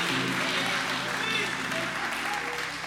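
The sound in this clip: A church audience applauds young people who have just ministered. The clapping is faint and steady, with voices talking over it.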